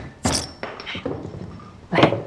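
A new glass bottle of peach-flavored soda being opened: a few sharp thunks and clinks of the cap and glass, with short bursts separated by quieter handling noise.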